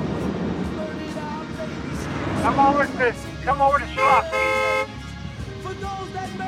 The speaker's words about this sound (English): Oh, we're honking!